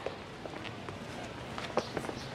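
Footsteps of a person going down a staircase make a quick, steady run of light, faint steps.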